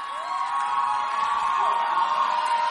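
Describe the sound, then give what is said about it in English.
An audience cheers and whoops to welcome a speaker at a testimony gathering, a loud, sustained wash of shouts and high voices that holds steady throughout. “Please help me welcome Annabelle to share her testimony with us. Put your hands together as we welcome Annabelle.”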